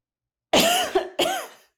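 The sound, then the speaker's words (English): A few harsh coughs land close into a microphone in quick succession, abrupt and fairly loud, with a short pause before the final cough, alone with no talking. “I was like, should I cough on the mic? That was terrible.”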